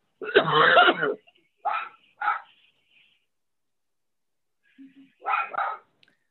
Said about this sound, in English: Wow, that's the dog's agreeing.